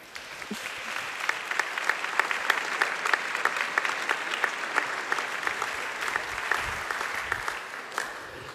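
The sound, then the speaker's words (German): Warm, sustained applause from an audience welcoming a pastor onto the stage at a church event in Augsburg: many hands clapping in a dense, even rhythm for about eight seconds, fairly faint and without talk. “Begrüßt mit mir hier ganz herzlich auf der Bühne mit einem warmen Applaus Pfarrer Dr. Thomas Schlegel.”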